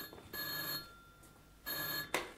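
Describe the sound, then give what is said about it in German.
Telephone in a night watchman's office ringing, two short bursts of a bright bell-like trill separated by a pause, fairly faint against a quiet background. “Das ist das Telefon im Büro des Nachtwächters.”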